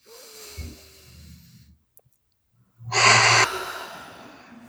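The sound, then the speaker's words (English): Deep breath during a tapping exercise: a soft breathy sound, a brief silence, then one loud, sharp inhale lasting about half a second. “Okay. Deep breath.”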